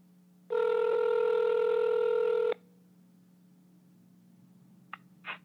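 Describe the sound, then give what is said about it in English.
Telephone dialing on a home phone: a loud, steady tone lasting about two seconds, then after a pause two short touch-tone beeps, all over a faint constant low hum. “right now I'm going to dial my grandmother's number. Here we go.”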